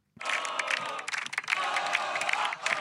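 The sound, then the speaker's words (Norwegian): A crowd of people cheers after winning a football match: a dense, continuous roar of many shouting voices that holds loud for the whole clip. “Dette er lyden av vinnere. Det høres ut som en hel skare med folk.”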